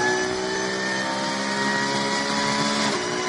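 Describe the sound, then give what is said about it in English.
Porsche Cup 2 class race cars on the throttle during a lap: a loud, unbroken engine drone with a strong humming tone that holds steady throughout, with no voices. “Listening to the early part of the lap, drivers a little bit more confident on the throttle now. Again, it's Alexander Hart, who's leading the Cup 2 class for Porsches in 10th position overall.”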